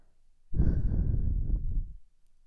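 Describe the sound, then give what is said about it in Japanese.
A single long breath blown out toward the ears, soft, airy and rushing, lasting about one and a half seconds with nothing else around it. “私たちは息を吐いてるだけなのに”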